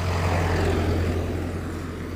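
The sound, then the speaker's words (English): A passing truck heard during a walk, giving a steady low engine rumble and broad road roar that hold for the whole moment and ease slightly toward the end, with no voices. “another truck drove past”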